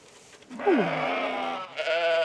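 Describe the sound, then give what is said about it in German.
A newborn white lamb bleats in a stable, giving two wavering, fairly high-pitched calls in quick succession. The first call is longer and the second is cut off at the end. “Lea Künnemann beobachtet heute im Stall ein kleines weißes Lämmchen. Es ist gerade erst vor wenigen Stunden auf die Welt gekommen.”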